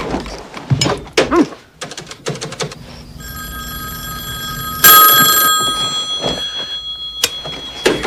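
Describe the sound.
A telephone bell rings in long, bright, metallic bursts after a few sharp knocks and thuds. The ringing is loud and sustained.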